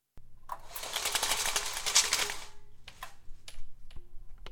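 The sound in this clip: Window blinds being operated, giving a dense, rapid rattling clatter for about two seconds that tapers off, then a few separate sharp rattles and clicks.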